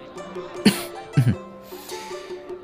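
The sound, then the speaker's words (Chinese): A man coughs from outside a curtain beside a halted carriage on a busy evening street: a sharp single cough, then a doubled one a moment later, short and fairly quiet against a low background murmur. “令程佑在帘外咳嗽两声”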